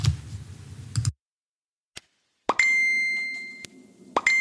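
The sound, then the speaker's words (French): A notification chime rings out as one bright, sustained tone that slowly fades, set between a few sharp clicks and pops. “ne t'inquiète pas, c'est pas chez toi que ça sonne, c'est ici. En fait, c'est juste pour attirer un petit peu ton attention”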